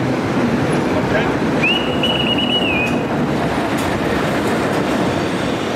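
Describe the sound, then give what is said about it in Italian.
A train pulls into a station, an electric locomotive with its carriages. A steady, loud rolling rumble runs throughout, and a high wheel squeal rises partway through and holds for about a second before fading. “In quel momento arriva il tren alla stazione.”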